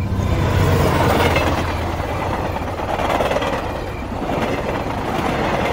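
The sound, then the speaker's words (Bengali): Steam train passing: a continuous loud rumbling and rattling roar of engine and wagons that holds steady with slight swells, alone with no voices. “আমাদের সামনে দিয়ে ধোঁয়া উড়িয়ে চলে গেল একটা ট্রেন।”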